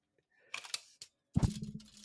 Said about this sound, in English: You know what else is more fun than Mike Trout? This tape measure right here. This tape measure is more fun than Mike Trout.